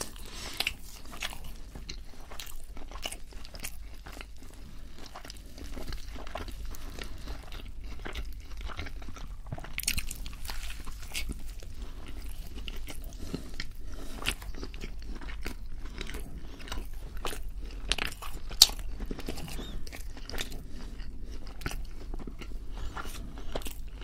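Close-up chewing and biting of a Burger King burger during a fast-food feast. Many soft crunchy bites and moist mastication sounds run in a steady, quiet stream, with no talking.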